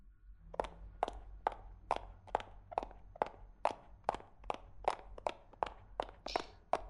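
Quick footsteps from someone hurrying on foot, each a hard, crisp strike. Many steps fall in a steady, brisk rhythm, heard alone.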